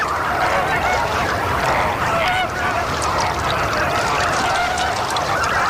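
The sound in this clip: A flamingo flock calls in a dense, continuous chorus of honking cries as an adult moves among the chicks, loud and unbroken throughout.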